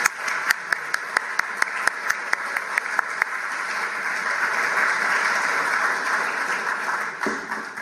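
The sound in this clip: An audience at the Boston Athenaeum applauds to welcome a speaker. The clapping is dense and loud, with distinct claps at first that swell into a steady roar of applause lasting about eight seconds.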